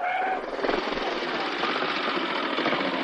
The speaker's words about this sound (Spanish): Otro día en la ciudad, un gran número de camiones descarga mercancías.